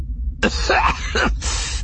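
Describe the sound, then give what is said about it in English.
A man coughs in a few harsh, rasping bursts that end with a throat-clearing sound, with no speech. “The rag finally removed, Skelly coughed before turning his ire on the Besalisks.”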